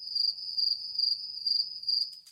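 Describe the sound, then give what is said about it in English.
A cricket chirps in five evenly spaced bursts of a steady, piercing high-pitched trill, each lasting about a quarter second with short gaps between, alone and fairly quiet. “What do you think that noise is? It's a cricket.”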